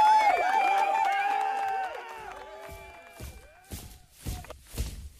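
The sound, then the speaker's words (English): Men cheer with a swell of shouting voices, then several dull thuds follow as spears pound on the ground in approval. Scattered voices continue around the thumps. “The men cheered and pounded their spears on the ground in approval.”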